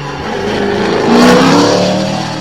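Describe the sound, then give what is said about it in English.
A TR8 sports car with a Rover 3500 V8 engine revs as it drives past, its steady engine roar swelling to a peak midway and then easing off slightly. “It's a TR8 again. TR8.”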